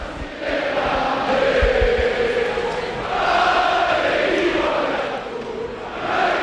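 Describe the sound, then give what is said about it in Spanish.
A football stadium crowd in Vitoria celebrates an epic 1-0 victory, giving a loud, continuous roar of cheering and chanting that swells and eases in waves. “A ver cómo suena Mendizorroza.”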